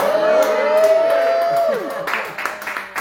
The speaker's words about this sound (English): And you're in a live audience. Everybody say hello.